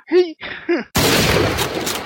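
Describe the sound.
A sudden gunshot sound effect erupts as a loud, harsh burst of noise after two short vocal sounds, then holds steady and rough until the end.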